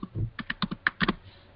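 Keystrokes on a computer keyboard as a phone number is typed in: a quick, slightly uneven run of light, crisp clicks, faint and heard alone without talk.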